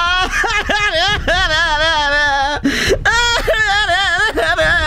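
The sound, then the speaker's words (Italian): A voice whimpers and cries in a wavering, high-pitched whine, loud and almost continuous, with a brief break partway through. “che cazzo hai da piangere?”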